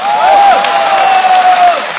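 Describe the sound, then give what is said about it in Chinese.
Audience applause at a live stage performance, a dense, steady wash of clapping that holds at a fairly even loudness for about two seconds. “这就是 掌声有点太热烈。”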